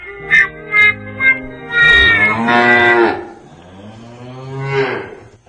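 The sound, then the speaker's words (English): Cow mooing played as a sound effect: three short, higher calls in quick succession, then a long, loud drawn-out moo, and a softer moo near the end. “You were supposed to play the cow first, then the horn.”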